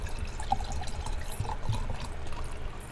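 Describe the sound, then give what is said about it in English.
A drink being poured, a soft continuous liquid trickle with faint drip-like splashes, steady and fairly quiet throughout. “I've poured my favorite drink”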